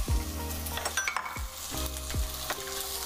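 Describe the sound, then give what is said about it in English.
Sliced onions fry in hot grease with a steady, crackling sizzle, broken by a few scraping stirs throughout; no one speaks. “So now that our grease is hot, we're gonna add our onions and grill our onions.”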